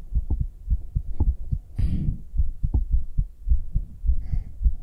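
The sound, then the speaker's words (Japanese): A fast, close-miked binaural heartbeat of a nervous, excited woman, with many rapid, low, thudding beats in a steady rhythm and a brief soft rustle partway through. “みんなに、女の心音聞こえちゃってる。女がドキドキしてるの、バレてる。めっちゃ早い。”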